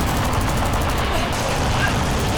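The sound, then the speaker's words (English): Heavy gunfire rages in a combat scene as a loud, unbroken barrage of dense, crackling bursts with no clear gaps between shots. “We're under heavy fire.”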